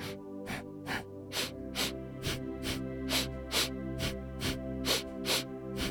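Quick rhythmic breaths go in and out through the nostrils in pairs, two sharp inhales and then two sharp exhales. Many short, even, hissing sniffs repeat at a brisk, steady pace over a soft continuous tone.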